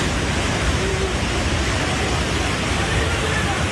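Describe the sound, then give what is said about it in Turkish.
Floodwater rushing after a downpour in Samsun, where the overflowing Hacı Osman Creek in Havza flooded the streets. It makes a loud, steady, unbroken roar of churning water with no pauses throughout. “Samsun'u vuran selin yeni görüntüleri ortaya çıktı.”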